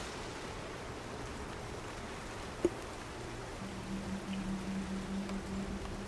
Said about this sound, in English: Wind seems to be picking up. You can see how it's like trying to lift the canopy now and then it thumps back down with all the rain on it.